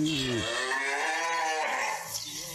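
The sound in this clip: Cattle mooing on a farm during milking in the Calvo region: a low moo that slides downward in pitch opens into a long, drawn-out lowing call that holds at a steady level throughout.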